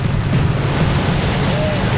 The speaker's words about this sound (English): The rapids suck Jeff in, spinning him onto his side, then his belly. He strains to keep his head above the white, foamy water.